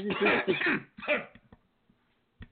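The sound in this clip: Coughing from a tickle in the throat: a few harsh, loud bursts in quick succession, then small throat clicks that fade into quiet, with one more faint sound at the end.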